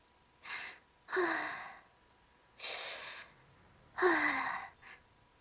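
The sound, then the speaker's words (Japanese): Deep, calming breaths taken one after another: a few long, airy breath sounds, each clearly separated by short pauses, loud and alone with no talk. “こんな時は、確か、あれです。深呼吸なのですよ。”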